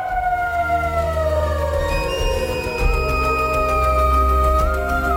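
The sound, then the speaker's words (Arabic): An ambulance siren wails continuously and loudly, its tone sliding through long falling and rising sweeps over a steady low background rumble. “صحيت من نومي الصبح على أصوات زعيق وناس بتصوت وحاجة زي صوت عربية إسعاف.”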